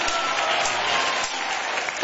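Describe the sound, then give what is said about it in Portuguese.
A church audience gives a round of applause for Jesus: thick, steady clapping from many hands that stays full and even across the whole clip. “Então dá uma salva de palmas para Jesus.”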